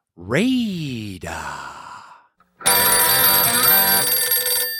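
A telephone rings steadily for an incoming caller, a bright, sustained electronic ring lasting about two seconds after a loud breathy sigh and a brief pause.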